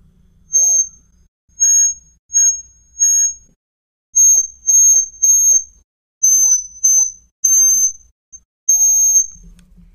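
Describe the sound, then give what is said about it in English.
Electronic beep tones play the opening of Jingle Bells: many short, loud, high-pitched notes at shifting pitches, separated by brief gaps. “I hated every bit of that. It was the beginning of Jingle Bells.”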